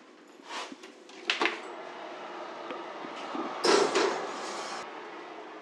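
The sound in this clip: Soft clatter as a buttered and floured soufflé mould filled with batter is placed into a fan oven set to 160 degrees: a few muted knocks and scraping rustles, the fullest burst near the end, with no voices.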